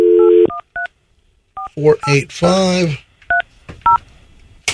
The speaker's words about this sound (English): Let me dial real quick. Hold on a minute.